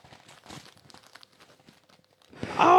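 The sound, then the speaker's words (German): Gift wrapping is torn open. Quiet voices and faint rustling come first, then a loud burst of crinkling, ripping paper. “Warte mal, jetzt reiß auf.”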